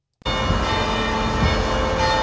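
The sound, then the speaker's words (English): Church bells at the old cathedral on Walnut Street ringing to celebrate a new Pope: a dense, loud, continuous peal that starts abruptly, with sustained ringing overtones throughout. “Church bells rang in celebration of the new Pope at the old cathedral on Walnut Street.”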